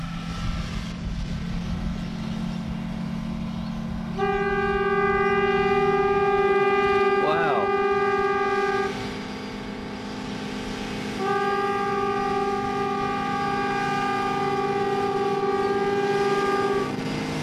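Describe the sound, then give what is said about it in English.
A train horn sounds two long, steady chord-like blasts, the first about four seconds and the second about six, over a continuous low rumble. “this is the sound of a train.”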